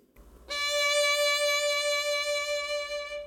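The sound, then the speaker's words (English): A held D note enters cleanly and sustains for about three seconds with a moderate, even vibrato, easing slightly in loudness toward the end. “So I'm going to take a D note, and I'm going to do some different vibrato”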